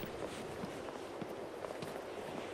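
People walking home along a street make a few soft footsteps, faint against steady background noise.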